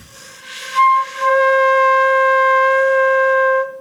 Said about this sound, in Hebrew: על הנקב הזה, האוויר נחתך פה על הנקב, מרעיד את עמוד האוויר בתוך הצינור ויוצר את הצליל. אז תראו כמה האוויר בעצם מתבזבז, אני ממש נושף אותו.